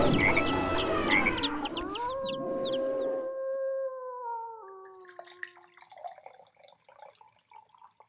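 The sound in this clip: A dog named Ollie gives one long, wavering awoo howl. The pitch falls in steps over a few seconds after a brief, noisy, chattering opening, then the howl fades into faint scattered sounds.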